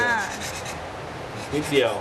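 Sandpaper rasps by hand across the corner of a piece of softwood: a continuous, moderately loud scratchy rubbing that surges briefly near the end.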